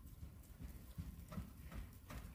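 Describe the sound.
Faint hoofbeats of a horse at a posting trot during a riding lesson, a soft, even, rhythmic thud repeating steadily throughout.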